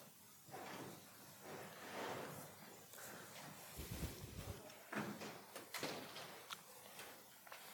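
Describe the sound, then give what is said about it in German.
A window being shut: faint sliding and scraping, a low rumbling thud near the middle and a few sharp clicks afterward, all quiet over a steady background hiss. “Wollen wir das Fenster da mal zumachen? Die sind ein bisschen sehr laut.”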